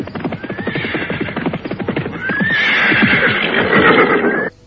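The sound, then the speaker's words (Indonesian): Horses galloping at night, with fast, rhythmic hoofbeats throughout and two high whinnies over them, ending abruptly. “Mereka berkuda bagaikan terbang menembus keheningan malam.”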